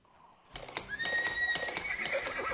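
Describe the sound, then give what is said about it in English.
Horse neighing in a radio ad for the Ozark Horse Trader: after a quiet opening, a loud, high, shrill whinny breaks in and carries on with a long, wavering, vibrating call. “Let the power of the horse go to work for you. Need it, want it, buy it, sell it, the Ozark Horse Trader.”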